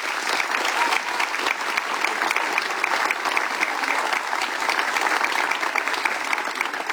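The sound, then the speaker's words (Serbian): Loud, continuous festival applause for a performer of Chakavian-dialect songs, with the crowd's clapping forming a thick, even wash across the whole stretch. “a to je meritalo jedan veli aplauz se, seh vas.”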